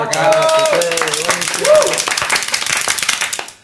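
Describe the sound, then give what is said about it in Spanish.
Applause for a musician after his performance: a crowd claps in a quick, uneven patter while a voice talks over the first half, and the clapping carries on more clearly afterward. “Un nuevo aplauso para él.”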